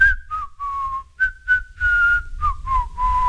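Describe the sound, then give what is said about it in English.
A cold, quiet whistle between the teeth from a man walking through autumn leaves: a string of short, breathy whistled notes, each gliding slightly downward in pitch, with small gaps between them. “A cold, quiet whistle between his teeth”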